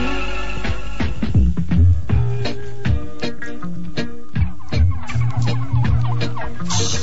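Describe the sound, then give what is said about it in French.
Many short, throaty clucks and gobbling calls from turkeys being fed. The calls come in quick, uneven bursts. “c'est la meilleure fois que vous nourrissez vos dindons depuis que je vous regarde”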